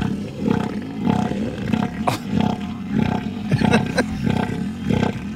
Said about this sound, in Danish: skal vi lige prøve at høre, hvordan lyder sådan en søelefant?